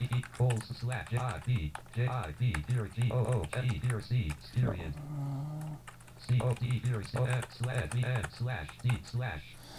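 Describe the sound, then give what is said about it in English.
Rapid typing on a computer keyboard while an address is entered: many sharp, irregular key clicks in dense bursts, a brief lull midway, then another fast run of keystrokes over a low steady hum. “First, I'm gonna type it, and then I'm gonna tell you how it's written.”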